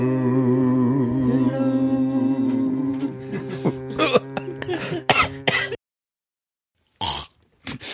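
Coughing from someone who has inhaled cake crumbs: harsh, uneven coughs in two groups separated by a short silence, following a steady humming tone.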